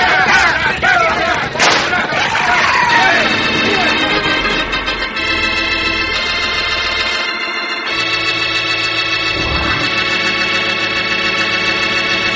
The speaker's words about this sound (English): Use your guns. If you have to, shoot him.